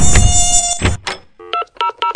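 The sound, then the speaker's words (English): Mosquitoes buzzing: a high, thin, whining drone that holds steady at first, then breaks into a few short pulsed bursts toward the end. “Can you come spray my yard for mosquitoes?”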